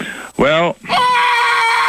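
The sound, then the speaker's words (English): A man yells loudly. A short, harsh shout is followed by a long, sustained, strained high-pitched yell that holds steady until the end. “How come he yelled like that?”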